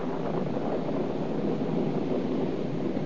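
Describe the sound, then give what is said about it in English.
Wind of an approaching storm, a steady and fairly loud rushing wash that holds without pause throughout, with no voices. “there's going to be a storm.”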